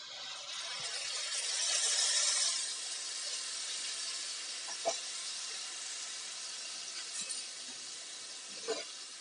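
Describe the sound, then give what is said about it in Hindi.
Puree hitting hot oil seasoned with asafoetida in a pan sizzles with a steady bright hiss, louder at first and then holding even, with a few small clinks of utensils against the pan. “हींग हमने ज्यादा नहीं डालनी है आप चाहे तो avoid भी कर सकते हैं बट मैं टेस्ट के लिए थोड़ा सा इसमें हींग डालूंगी अब मैंने यहाँ पे जो प्योरी तैयार की थी वो मैं इसमें डाल दूंगी”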